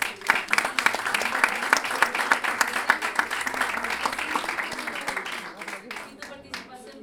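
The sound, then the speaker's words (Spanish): Audience applause at an evening of improvised sung verse in a small, packed venue: dense, steady clapping that keeps going for about seven seconds and thins out slightly toward the end. “Luis Órdenes, un aplauso para”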